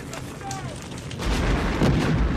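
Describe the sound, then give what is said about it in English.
Part of a train explodes on the tracks amid a fire, and a deep, heavy boom swells up midway. It settles into a sustained low rumble that stays loud to the end. “Further behind on the tracks, a part of the train explodes.”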